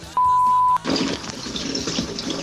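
A short, steady electronic beep is followed by liquid splashing and hissing as someone urinates in a shower. The watery rush continues at an even level to the end.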